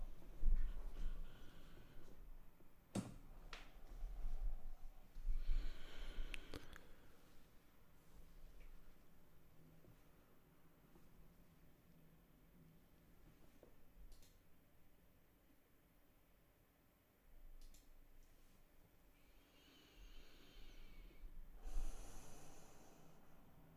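Slow, deep breathing in and out during a guided meditation: a few soft, airy swells of inhaling and exhaling rise and fade. The breaths are faint and unhurried, with no talk.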